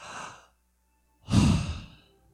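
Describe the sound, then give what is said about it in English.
Deep breath taken together on a count during a church sermon: a soft airy inhale, a silent pause, then a louder, longer whooshing exhale that fades out, with no talk. “I want you right now, this second, to take a deep breath with me on three. One, two, three.”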